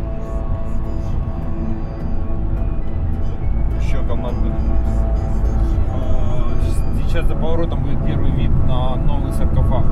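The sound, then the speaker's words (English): A car drives from a checkpoint toward the former city of Chernobyl, its engine and tyres making a steady, loud low rumble that fills the whole stretch and grows slightly stronger partway through. “And here we are, driving from a checkpoint to the former city of Chernobyl.”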